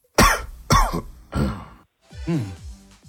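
Four harsh coughs, the first three sharp and evenly spaced, followed by a more drawn-out, rougher one, all loud and alone without speech.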